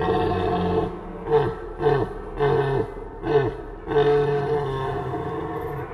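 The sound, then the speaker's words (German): Red deer stag roar imitated by blowing a triton shell call to mimic a younger stag: a long droning call, then a few short grunting bursts and a final drawn-out roar, deep and loud. “Ich mache also den jüngeren Hirsch, der nach einem Tier sucht und einer kleinen Rauferei nicht abgeneigt ist.”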